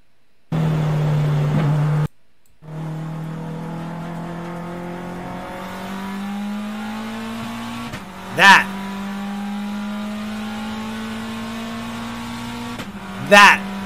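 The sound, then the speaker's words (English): A rally car with a dog box gearbox drones as its engine pitch climbs steadily. Two sharp, loud clacking bursts stand out at gear changes, and a voice talks over parts of it. “the clicking and crazy sounds that it does. Rally car dog box. The clicking it makes.”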